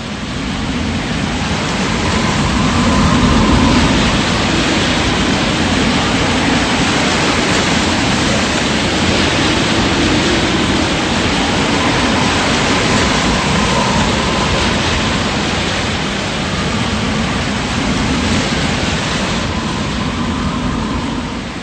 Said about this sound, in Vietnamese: Vào giữa trưa, cường độ sóng bão còn mạnh gấp nhiều lần.